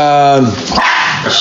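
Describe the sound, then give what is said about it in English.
Dog barking: one loud, tonal bark at the start, drawn out slightly, then a short stretch of noisy rustle. “That's the dog. Oh, well, we got a dog in here.”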